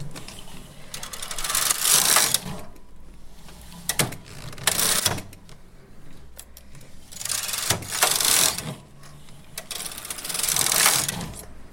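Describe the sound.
A domestic knitting machine knits yarn with mechanical whirring and clattering as the carriage makes several long, rasping passes with ratchet-like clicks. Each pass swells loud and then eases off, and no one speaks.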